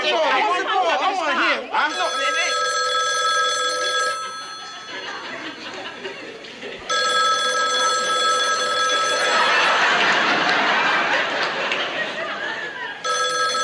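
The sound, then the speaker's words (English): A telephone rings in a household, its bright electronic ring coming in a few repeated bursts separated by short gaps, while people talk and chatter over it. “Answer the phone, baby.”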